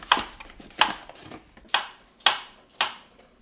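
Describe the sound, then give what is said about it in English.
A knife chops apples into half-inch cubes with five sharp, crisp strikes at an uneven, unhurried pace, each cut ringing briefly, with faint softer scrapes between them. “Basically, you need to chop the apples into half-inch cubes. So she hands me the knife.”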